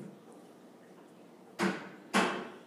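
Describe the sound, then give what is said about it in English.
A door being closed, heard as two sharp, loud thuds about half a second apart after a quiet stretch of low background hum. “Close the door.”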